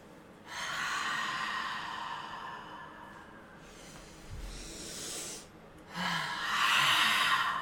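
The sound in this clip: Several people inhale deeply during a guided breathing exercise, giving a few long, breathy, hissing intakes of air with short pauses between them. No one speaks during the breaths.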